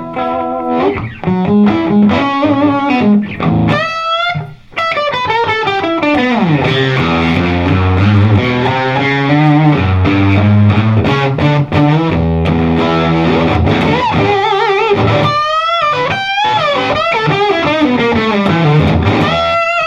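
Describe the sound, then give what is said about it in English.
Distorted electric guitar with a Strat-type single-coil pickup, its power tubes compressing as the player digs in, wails with loud sustained lead notes, bends and gliding pitches, and dense harmonics throughout. “Single coil. That's it wails. It just wails. And you can hear it when he's digging in. You can hear the power tube compress that.”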